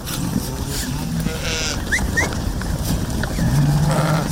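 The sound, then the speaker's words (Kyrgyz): Sheep bleating in a flock of about 500 grazing on mountain pasture. A few scattered bleats sound over a steady noisy background, with a longer, lower bleat toward the end. “Бияк койлорум меники. Азыр канча коюңуз бар? 500 баш бар.”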